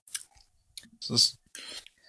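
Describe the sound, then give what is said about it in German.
Someone sipping and tasting a raspberry sour beer, heard as a few brief wet mouth clicks and smacks. A fuller slurping burst comes in the middle, with short quiet gaps between the sounds. “Ich nehme jetzt mal ein Näschen und man riecht schon ein bisschen die Säure von dem Bier. Und ich probiere es jetzt mal.”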